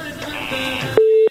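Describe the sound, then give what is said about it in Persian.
A telephone line tone as a call-in radio show connects a caller: a single short, steady mid-pitched beep, about a third of a second long, near the end that cuts off abruptly. “میریم به طرف تماس بعدی بشنیم کدام از ما هست و از کجا تماس گرفته”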